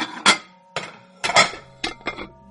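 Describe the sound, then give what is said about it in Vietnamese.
Bowls and plates clink together in several short, bright knocks, irregularly spaced with some in quick pairs, each leaving a brief ringing tone that fades into quiet. “Đúng lúc này, bỗng có tiếng bát đĩa va vào nhau leng keng.”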